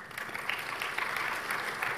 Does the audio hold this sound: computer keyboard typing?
no